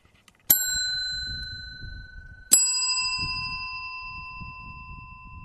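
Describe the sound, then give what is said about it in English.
Road track bell struck twice about two seconds apart, each strike bright and high-pitched, ringing on and slowly fading over a faint low rumble. “It's the sound of the road track bell, and that is where I am.”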